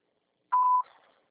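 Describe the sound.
A voicemail beep on a phone line, a single steady mid-pitched tone held for a fraction of a second. It stops cleanly, leaving a faint trailing hiss.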